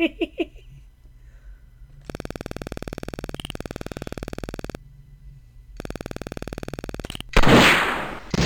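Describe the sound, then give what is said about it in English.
Buzzy electronic tones from an old computer target-shooting game, then a harsh burst of noise at the end as the TV picture tube target is shot and shatters. “That's breaking the TV! You don't want to do that!”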